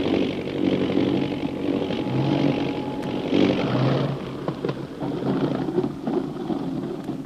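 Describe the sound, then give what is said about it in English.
An airplane comes down for a landing, its engine giving a continuous low droning rumble mixed with wind-like noise that stays fairly steady throughout. “We're dropping now for a landing.”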